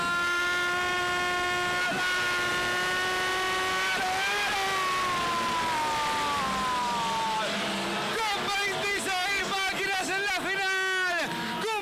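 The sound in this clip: Race car engines from the 850 class group 1 as a final gets under way: a steady, high-pitched engine drone that turns into rapid, surging revs in the last few seconds, loud throughout.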